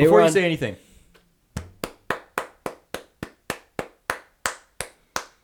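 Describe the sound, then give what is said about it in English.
A single person claps slowly and evenly, about a dozen sharp, crisp claps at a steady pace. They come alone after a brief spoken voice at the start. “I'm going to give a round of applause. Congratulations for them going 3-0 so far on their trip.”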